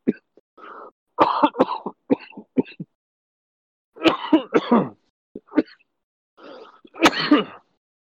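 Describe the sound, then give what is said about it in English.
Coughing and throat-clearing over a voice-call connection: many harsh bursts in irregular clusters, split by short silences, with no talk. “your coughing sounds clear”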